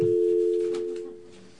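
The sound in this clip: A telephone dial tone sounds on a radio call-in line: a steady, continuous electronic hum at one pitch that holds evenly, then fades noticeably toward the end.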